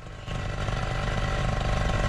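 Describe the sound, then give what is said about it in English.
A propeller engine with its throttle stuck kicks in abruptly after a brief quieter moment, then holds a loud, harsh, buzzing drone with a fast pulsing texture and no talk. “you can hear that throttle. Stuck still”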